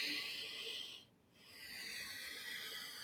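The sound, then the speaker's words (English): A deep breath drawn in through the left nostril with the right one closed, during a calming breathing exercise. It is a soft, steady airy hiss that dips briefly midway before carrying on. “So you could just close your right nostril, take a deep breath in from your left nostril,”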